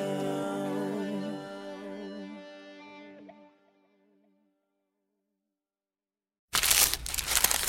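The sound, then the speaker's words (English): The paper wrapper of a McDonald's steak, egg, and cheese bagel crinkles and crackles in a loud burst near the end, after a musical passage fades into silence. “For all you foodies out there, I'm unwrapping a McDonald's steak, egg, and cheese bagel.”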